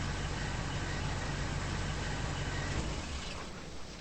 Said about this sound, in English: The sheriff pulls the truck to a stop in front of Jesse.